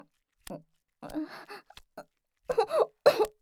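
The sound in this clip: A person chokes and splutters in a few short, irregular coughing bursts, with quiet gaps between them. The last coughs are louder and come closer together.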